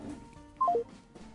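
A phone call cuts off with a hang-up tone: three quick beeps stepping down in pitch, heard once over faint background noise.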